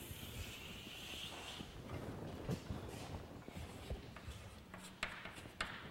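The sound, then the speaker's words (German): Faint scratching of writing on a board during a mathematics lecture, with light strokes and a few soft taps over quiet background hiss. “Das schreibe ich hier noch hin, haben wir es auf einer Tafel.”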